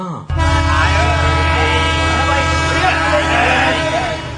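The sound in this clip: A train's horn sounds as it arrives at a station: one loud, steady, sustained blast of about four seconds, with a voice speaking over it.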